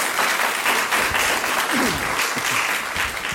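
An audience applauds to welcome a guest to a panel discussion on e-sports. The clapping is steady and even throughout.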